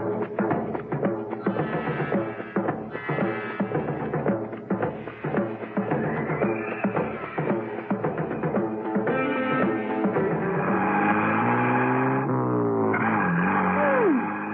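A car driving, its engine droning loud and continuous and rising in pitch as it revs, with gliding tonal sweeps near the end; no voices.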